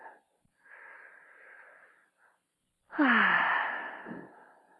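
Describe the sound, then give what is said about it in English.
A deep breath taken alone in a guided exercise about feeling emotions in the body: a soft drawn-in inhale, a brief pause, then a louder, raspy exhale with a slightly wheezy, sighing edge that gradually fades. “Okay, take a nice deep breath.”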